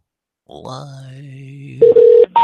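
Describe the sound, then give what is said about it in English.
A telephone dialing a number during a prank call: a few short, steady electronic tones follow a brief voice, the last beep cut off at the end. “Okay, let's call another number here. See what we can do here.”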